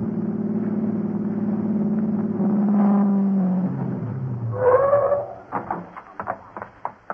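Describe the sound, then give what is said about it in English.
A car engine, started and then driven fast, holds a steady low drone that swells into a rev, followed by several short, uneven bursts of sound. “get Larry's car started. Then you use every shortcut you know to Fran's house.”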